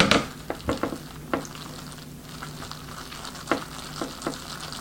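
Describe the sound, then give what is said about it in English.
A spoon stirs a triple-cheese packet into boxed macaroni in a pot, giving many scattered clicks and scrapes against the metal over a soft, wet, sizzling texture. “That's the triple cheese. All right, let's stir this up.”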